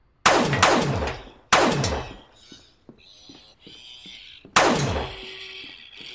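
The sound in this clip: Gunfire in a video game shootout against a robot bartender: three loud, sharp blasts with ringing decays, separated by quieter mechanical clicks and clanks.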